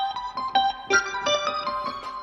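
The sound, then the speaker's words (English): The Electric Harpist Chord Retro keyboard preset plays a quick, rhythmic run of bright, plucked harp-like notes and chords, each struck sharply and ringing briefly. “Hey, I like this sound though. It's a new one. This is Electric Harpist Chord Retro.”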